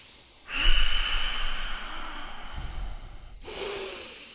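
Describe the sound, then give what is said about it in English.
Deep, controlled breaths drawn in and pushed out through the nose: a long, airy snorting inhale and then a second rush of breath after a short pause, moderately loud with no talking. “We'll go five controlled breaths with the nose.”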